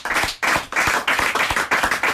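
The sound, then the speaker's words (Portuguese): Applause from an audience: many overlapping hand claps form a loud, dense, steady roar that swells in repeated bursts throughout. “Alexandre Silva, para quem eu vou pedir uma salva de palmas”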